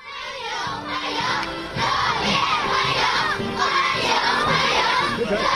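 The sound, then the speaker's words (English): A group of children cheers and shouts for Xi Jinping and Russian President Putin at a welcome ceremony at the Great Hall of the People. Many young voices shout loudly and continuously, growing fuller after the first couple of seconds. “They were then cheered by a group of children.”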